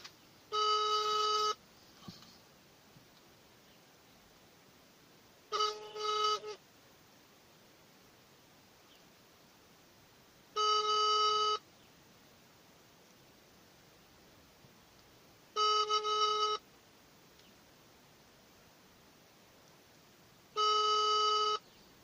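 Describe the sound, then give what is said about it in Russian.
Telephone ringing with no answer: five evenly spaced buzzy ring tones, each about a second long with roughly four seconds of quiet hiss between them. “В общем, не беру трубку, видите, будем продолжать дальнейшее общение по СМС.”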